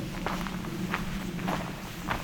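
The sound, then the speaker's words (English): Footsteps on a nature trail in a pine tree nature preserve: about four soft, evenly spaced steps at a slow walking pace, faint and alone. “Johnson Harbor, also known as Pine Tree Point Nature Preserve, it's a fairly lengthy trail. I'm not going to be walking all of it today.”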